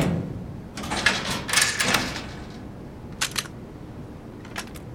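A weapons locker being unlocked and opened aboard a station: a few dull mechanical clatters and sharp clicks over steady low background noise.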